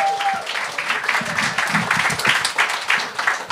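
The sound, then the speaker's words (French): Applause from a live audience: a steady, moderately loud patter of many hands clapping for a few seconds. “Il y a 300 personnes qui nous écoutent en live, on les applaudit!”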